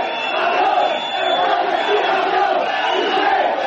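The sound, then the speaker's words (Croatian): Fans whistle and shout insults at footballer Piqué as he comes onto the pitch at the national team's training camp. A loud, unbroken crowd roar carries a thin, steady whistle throughout. “U trenutku kada je Piqué izlazio na teren trening kampom, čuli su se glasni zvižduci i uvredljivi povici koji su mu upućeni.”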